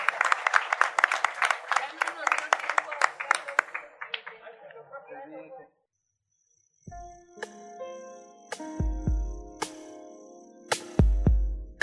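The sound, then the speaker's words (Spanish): Crowd applause at a celebration of a long-running program's 30th anniversary. Dense, rapid clapping fades out into silence, followed by separate musical tones and a few heavy hits. “Y bueno, queremos darles un aplauso a ustedes.”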